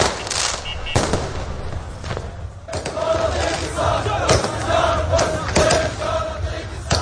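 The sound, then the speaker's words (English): A crowd in Baghdad celebrates at night over the withdrawal of US troops. Continuous cheering and shouting is broken by many sharp, loud bangs scattered irregularly through the din. “And here are the sounds of celebrations in the capital, Baghdad, on Wednesday night.”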